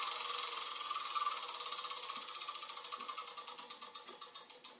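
A board game spinner is spun, giving a fast run of small clicks that grow more distinct toward the end, faint against a steady hiss.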